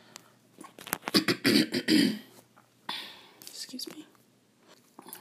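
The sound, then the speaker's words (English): Coughing and throat clearing from a person still getting over a cold: a cluster of short, harsh bursts, then a second quieter run of raspy coughs. “excuse the coughing. I'm still getting over that cold”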